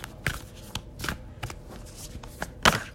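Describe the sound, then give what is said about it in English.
Tarot cards are shuffled by hand in a series of crisp, papery riffling bursts, with the loudest and densest flutter coming near the end. “I'm going to actually shuffle them right now live on the podcast and ask that the universe give the collective a message that they most need to hear.”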